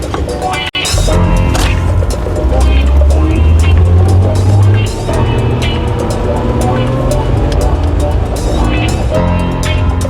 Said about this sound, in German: Jetzt rollt er aus der Einfahrt. Er fährt nach Osten.